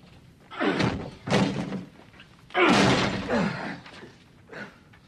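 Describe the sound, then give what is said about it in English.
A locked door being forced open: a few heavy, booming thuds and crashes at uneven intervals, each loud and abrupt against a quiet background. “Get the door open. Get it open, quickly.”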